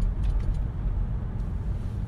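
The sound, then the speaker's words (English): A Galaxy car drives along a road with a steady, low engine and road rumble. A few faint, high ticks sound early on. “I'm driving the Galaxy, obviously.”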